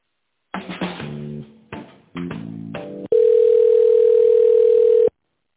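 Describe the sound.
A telephone line tone while a call is transferred: a short run of chiming electronic tones is followed by one long, steady mid-pitched tone lasting about two seconds, with no speech.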